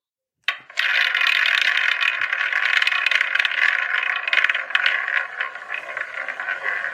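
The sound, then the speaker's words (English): A specially constructed quiz wheel spins steadily, giving a dense, continuous rattling clatter with rapid clicking that holds at an even level for several seconds with no talk over it. “So let's spin the wheel.”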